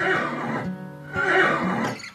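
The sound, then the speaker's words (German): A horse neighs softly at a stable, giving two breathy whinnying bursts separated by a short pause, with no talk over them. “sanften Wiehern, das dich zu einem Stall führt. vor dir steht ein prächtiges Pferd”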